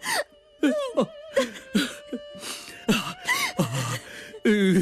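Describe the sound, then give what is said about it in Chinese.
A young woman cries: many short, broken, wavering sobs and whimpers with falling pitch, separated by brief gasps and catches of breath, fairly loud and alone. “东三莫哭莫哭啊”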